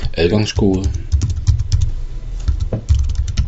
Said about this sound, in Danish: For at komme derover, så skal du heroppe på en webbrowser skrive